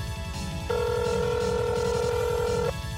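A telephone keypad tone dialing into a voicemail box, one steady two-tone beep held for about two seconds over a low, rhythmic pulsing background.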